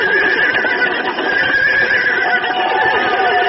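Horses neigh and whinny loudly and continuously, the shrill cries overlapping without pause.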